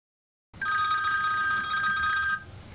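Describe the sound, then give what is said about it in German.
A telephone rings for an incoming call: after silence, a single bright, sustained electronic ring lasts under two seconds, then cuts off into faint low background noise. “Flori ruft Katrin an, um ihre Reise zu erklären.”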